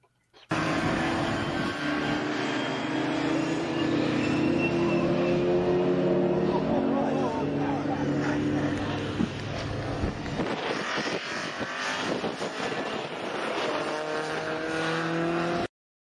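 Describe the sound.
A touring car spinning on a very wet race track in a 36-car field roars continuously for about fifteen seconds, its engine note mixed with spray and wind buffeting on the microphone.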